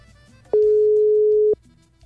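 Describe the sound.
One ring of the ringing tone on an outgoing telephone call: a single steady, even pulse lasting about a second, with quiet before and after.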